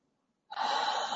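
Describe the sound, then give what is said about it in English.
A deep inhaled breath during a calming tapping exercise: after a short silence, a sudden breathy intake begins and holds steady to the end, with no talk. “Okay, take a deep breath.”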